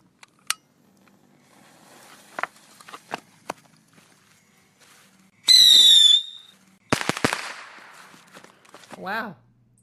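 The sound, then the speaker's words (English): A bottle rocket firework is set off in a sewer: scattered sharp clicks and taps, then a loud shrill whistle lasting under a second, quickly followed by a burst of sharp crackling bangs. “Time to light off another bottle rocket.”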